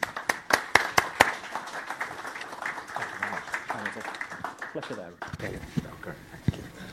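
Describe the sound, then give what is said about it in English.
Audience applause welcoming a professor as a lecture speaker: a steady patter of many claps, sharpest at the start and thinning toward the end. “So, ladies and gentlemen, a warm welcome for Professor David Bailey.”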